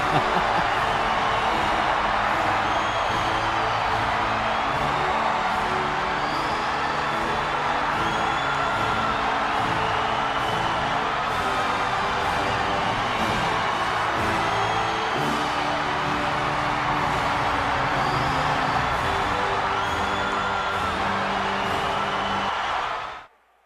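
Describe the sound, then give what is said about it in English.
Arena crowd at a wrestling event roaring for Macho Man, a sustained wall of cheering with scattered whoops that stays loud and steady for about twenty seconds before cutting off abruptly at the end. “The crowd is going apeshit for Macho right here,”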